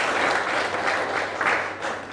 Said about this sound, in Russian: Особые эти аплодисменты мы адресуем самому скромному человеку, который находится в этом зале